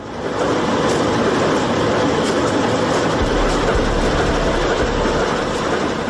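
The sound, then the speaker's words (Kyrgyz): Trains arrive at the railway station in Kant, a steady, loud rolling rumble with a faint rhythmic clatter of wheels that carries on without pause. “Кант шаарындагы темир жол бекетине поезддер тынымсыз келип келет.”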